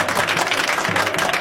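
A crowd at a football match applauds a substitute coming onto the pitch late in the game. Dense, continuous clapping stays at an even level throughout.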